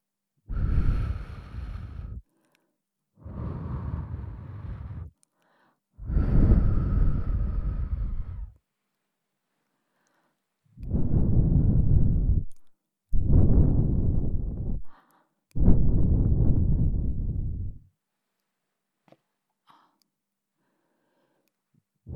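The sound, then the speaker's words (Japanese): Air is blown into the listener's ear in ASMR style: six long, soft, breathy gusts of rushing wind noise separated by short pauses, followed by near silence. “耳風、気持ちいい？もっとしてあげるね。”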